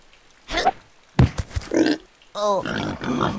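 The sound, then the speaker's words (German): Attacking pigs grunt and snort in a string of short, rough bursts, followed by longer throaty oinks with a nasal, buzzing tone. “Die Schweine greifen an.”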